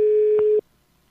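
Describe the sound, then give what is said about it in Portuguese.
A telephone line tone sounds while a call is placed: one steady, mid-pitched electronic beep lasting about half a second, cut off abruptly into near silence. “vamos ligar pra Jaqueline.”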